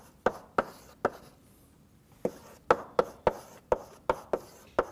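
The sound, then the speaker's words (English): Quick sharp taps and strokes of a marker or chalk on a board as binary trees are drawn during a dynamic programming lecture, many crisp hits in an uneven rhythm with a short pause near the middle. “I'll draw them really quickly just to get a sense of the variety here, but I won't write the equations down for all of them.”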